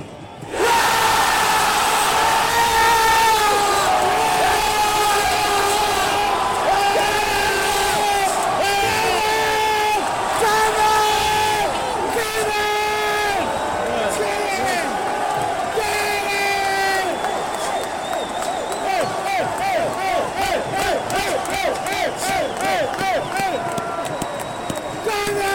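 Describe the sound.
A football crowd at a cup match roars and cheers through a penalty kick and the goal going in, with loud whoops and bellowing voices over a dense, continuous wall of noise.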